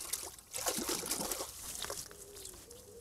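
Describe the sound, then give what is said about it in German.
Water rinses over plant roots being washed before winter storage, an uneven trickling and sloshing with soft splashes that stays fairly quiet throughout. “Ich wasche es auch gleich nochmal aus. Bevor es ins Winterlager geht, wird nochmal geduscht.”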